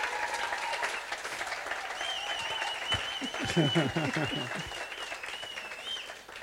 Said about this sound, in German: Can we give them another hand? Those guys are Lass so awesome. Lass uns nochmal Applaus geben.